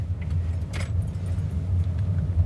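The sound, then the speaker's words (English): A car pulling off a parkway into a small car park, its low engine rumble steady throughout, with a brief metallic jangle of keys near the start. “So we've just pulled off the main parkway stretch and we're just driving into a little car park lot.”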